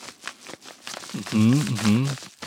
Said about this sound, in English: It's like a white envelope.